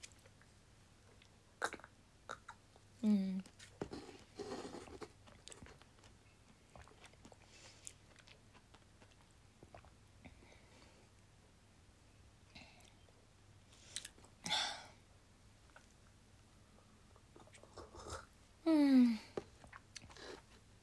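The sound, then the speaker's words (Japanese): Someone eats yogurt quietly. Faint, scattered clicks and wet mouth sounds come at irregular intervals, with a couple of brief vocal murmurs in between. “まあ、ヨーグルトをね食べてる。”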